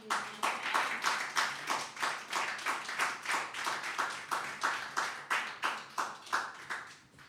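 A church audience claps in praise to God. The clapping is steady and rhythmic, keeps an even beat of about three claps per second, and carries on throughout.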